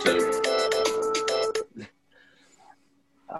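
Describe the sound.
A mobile phone alarm tone plays a bright, repeating melodic pattern of electronic beeps, loud and steady for about a second and a half before cutting off, followed by quiet with faint scattered sounds.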